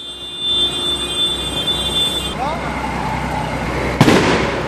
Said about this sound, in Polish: Z takim hałasem cały czas się zmagamy, bo to jest straszacz na dziki.